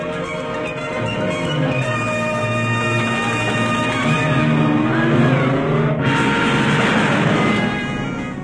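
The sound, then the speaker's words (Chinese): A car's engine revs as it pulls away, carrying a duke and his wife who have hurriedly climbed in, a steady rumbling drone with pitch climbing as it accelerates; no talk. “快开车，你认识路。”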